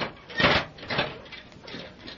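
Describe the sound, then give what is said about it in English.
A cage door is shut, giving two muffled, fairly faint clanks about half a second apart, followed by a low rustle. “Shut the door to the cage after you.”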